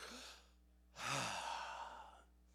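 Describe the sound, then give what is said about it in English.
A human voice draws in a single deep breath, imitating God breathing life into man: one long, airy, breathy sound lasting over a second, faint and alone without words. “Because God breathed himself into you, and man went,”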